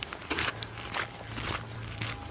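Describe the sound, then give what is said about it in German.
Footsteps of someone walking toward a shrine near rushing water, a faint, fairly regular series of soft scuffing steps over a low steady background hum. “Sonst hört man jetzt nur meine Schritte.”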